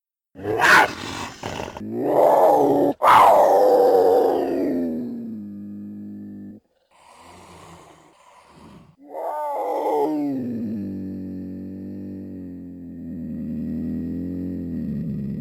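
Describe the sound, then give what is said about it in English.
A cougar growls and snarls in several harsh, loud bursts, then gives a quieter raspy sound before a long, drawn-out, moaning yowl that holds a steady pitch and slowly fades. “our mystery sound, you may not be surprised to hear this, is a cougar.”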